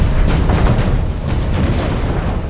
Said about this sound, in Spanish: Cómo las explosiones casi están moviendo este hotel.